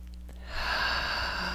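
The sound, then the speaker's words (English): A deep breath taken during a guided meditation session: after a brief quiet start, a soft, steady breathy rush of air swells up and holds evenly to the end. “Okay, nice deep breath.”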